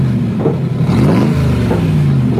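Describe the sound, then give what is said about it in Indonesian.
A motorcycle engine revving in the morning: a loud, continuous mid-pitched drone whose pitch climbs and then settles back, running throughout with no talk. “siapa yang pagi-pagi hari sut bagas motor ni?”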